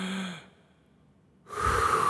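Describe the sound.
A deep breath taken close to the microphone. A soft sound is followed by a stretch of near silence, then a loud, rushing breath that carries on to the end.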